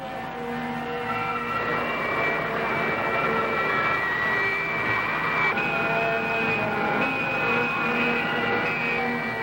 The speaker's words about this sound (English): Ascend. 38 degrees. More thrust. I'll increase the thrust to Mach 80.